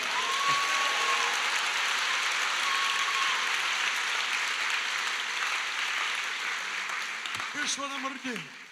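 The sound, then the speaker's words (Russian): A church audience applauding at a conference service: loud, continuous clapping throughout, with voices rising over it near the end. “Это хорошее место, чтобы дать аплодисменты Господу.”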